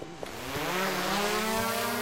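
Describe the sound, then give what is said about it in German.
Thermal imaging drone motors spinning up at launch over farm fields: a buzzing whine rises quickly in pitch, then settles into a steady, loud, harmonic drone. “So, alles ist eingestellt, die Drohne kann starten.”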